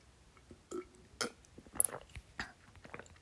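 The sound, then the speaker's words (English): Sips of tea, heard as a few faint, wet slurps and swallowing clicks scattered in short bursts, with no talking in between. “sorry, I'm sipping some tea here.”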